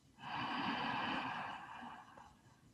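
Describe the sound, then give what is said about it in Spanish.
Group inhaling together during a guided breathing exercise: one long, soft, airy drawn-in breath that swells quickly, holds, then slowly fades, faint and with no talk. “Vamos a inhalar todos juntos.”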